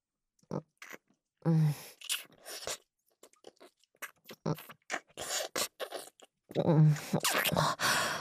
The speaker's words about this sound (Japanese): 君のプルプルで美味しそうな唇を見ていたら、ついキスをしてしまったよ。